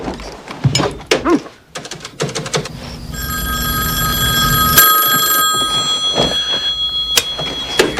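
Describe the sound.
A telephone rings late at night with a steady, bright electronic ringing that lasts several seconds, preceded by a stretch of clicks, knocks and rustling noise.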